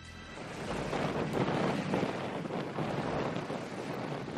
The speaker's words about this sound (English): The huge sails swell in the wind.